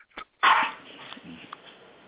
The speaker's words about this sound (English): I've got dogs barking. Come on, stop it.